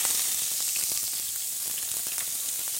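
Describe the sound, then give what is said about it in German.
Plain vegetable oil sizzling in a very hot pot, a steady dense crackle and hiss that stays even throughout with no voices. “Aber ich kann ja jetzt schon mal zumindest das Öl in dem Topf erhitzen. Nimmst du da Olivenöl oder was für Öl nimmst du da? Der Topf ist ziemlich heiß. Ich nehme ganz normales Pflanzenöl.”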